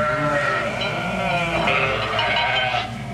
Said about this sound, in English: I guess that's why a shepherd loves his flock and takes care of them so carefully. If I'd let them, they'd graze and without looking fall right over that cliff. Come, this way, my flock.